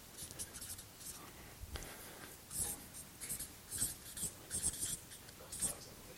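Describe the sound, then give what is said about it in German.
A pen scratches across paper as someone writes a word by hand, giving a quiet series of short, irregular strokes with brief pauses, while faint speech sits in the background. “Ich schreibe einfach Herz auf.”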